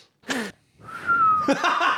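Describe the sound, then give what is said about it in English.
A person whistling: a short breathy burst, then a thin whistled tone held for about half a second, followed by a noisier, wavering whistled stretch. “Whistle, I know how to whistle now.”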